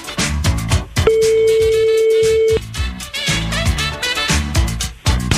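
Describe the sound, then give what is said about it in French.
A telephone ringing on the caller's end during a phone-in prize game: one steady, mid-pitched ring tone lasting about a second and a half, set against loud, rhythmic music that continues before and after. “Et ça sonne.”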